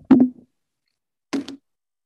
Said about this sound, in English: Is somebody at my door? Hold on one